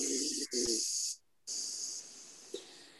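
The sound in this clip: Alternate nostril breathing in and out, in soft, hissing nasal breaths. A few breaths follow one another, with a short silent pause midway and a faint click near the end; no voices.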